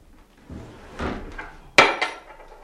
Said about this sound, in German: Hier ist eine Schublade, die klemmt. Warten Sie, ich helfe Ihnen.